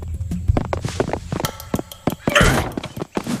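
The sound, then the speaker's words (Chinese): Thieves kick in a door at night: a rapid run of sharp knocks and heavy thuds, with a louder, rougher crashing burst partway through before the thumps continue. “这也太猖狂了吧，直接踹门进啊，够刺激。”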